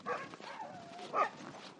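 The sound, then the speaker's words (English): Sled dogs in training in Willow, Alaska, near the start of a long-distance race trail: faint, high yips with a thin whining tone in between, two louder bursts standing out. “Rachel Sidoris, who's from Oregon, has been training her dogs here. She shows them off with pride.”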